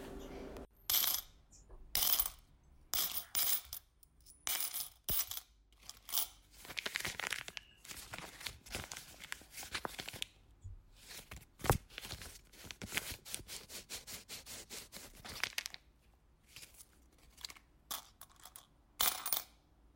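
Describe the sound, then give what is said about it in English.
Coins clink and drop, mixed with crinkling and rustling, in many irregular bursts of varying loudness with brief pauses between them. “Here's a minute of money sounds to ponder this.”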